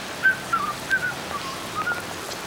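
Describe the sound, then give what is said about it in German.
Whistling, standing in for whistling flies: a few short, thin, high chirping notes, fairly faint and slightly wavering, over a low background hiss. “Na, was pfeifen die Fliegen heute?”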